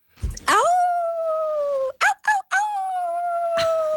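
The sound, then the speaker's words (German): A person imitates a wolf howl with one long, sustained, tonal howl that holds steady for a few seconds, is broken briefly by short gaps in the middle, and then carries on. “Unsere Aufgabe heute, das Wolfsgeheul hören und mit einer Sprachnachricht antworten. Auch als Wolf.”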